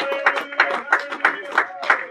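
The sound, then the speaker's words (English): A church audience claps along in a steady rhythm, six evenly spaced hand claps under a singing, exhorting voice. “Clap your hands to the Lord here tonight, everyone in the house. Clap your hands unto the Lord.”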